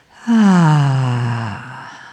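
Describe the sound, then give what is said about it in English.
A deep, voiced exhale, like a long sigh, taken during a guided breathing exercise while lying on the floor. It is loud and smooth, sinks steadily in pitch and then fades out. “So big breath in through the nose, exhale that.”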